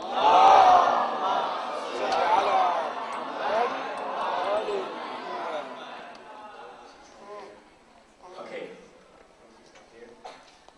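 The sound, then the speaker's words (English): An award-ceremony audience recites a loud salawat in unison, many voices chanting together in a strong, swelling wave that gradually fades, followed by quieter scattered voices. “Please welcome Dr. Rebecca Masterton from UK, and with a loud salawat.”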